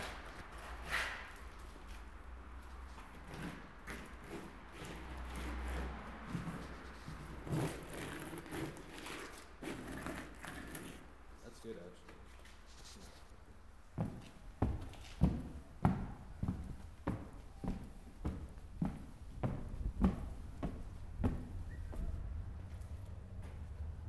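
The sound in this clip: Footsteps of someone walking on a surface, faint and scattered at first, then a steady run of many evenly spaced thuds through the second half over a low background rumble.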